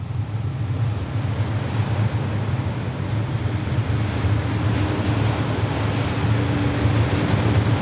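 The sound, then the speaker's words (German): Distant sea surf rumbling as a steady, unbroken roar with a deep low rumble underneath, constant in loudness throughout and with no voices. “hört sie die Brandung grollen. Sehr weit.”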